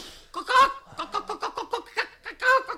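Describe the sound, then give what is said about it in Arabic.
A hen clucks, the creature being a person magically turned into a hen, with many short, rhythmic clucks in an uneven run, some louder and more throaty bursts standing out. “مولانا السكسك فرخة بتوكوك”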